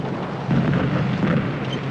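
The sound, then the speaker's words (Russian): Artillery shells exploding across a battlefield during a tank advance make a continuous, heavy low rumble with no clearly separated blasts, steady and loud throughout, with no voices. “По всему полю взрываются снаряды.”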